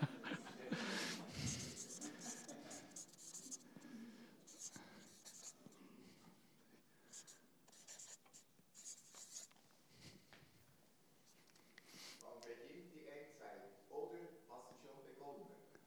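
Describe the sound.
Pen scratching across paper as someone writes by hand: a continuous run of dry, rasping strokes with brief pauses, lasting about sixteen seconds under soft, low voices.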